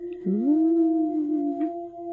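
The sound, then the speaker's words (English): Wolf howl sound effect: one long, clear howl that scoops up in pitch at the start and then holds a steady, sustained tone for about two seconds before tapering off. “the sound that you did not hear in the last week's episode is, of course, our wolf howl. It has now become synonymous with our Crave the Book podcast.”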